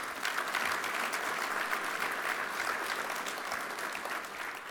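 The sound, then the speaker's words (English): Audience applause for Coach Vivian Stringer at an awards event: a steady, even wash of clapping from many people, continuing throughout and easing slightly near the end. “Congrats again to Coach Stringer. Let's give her a hand.”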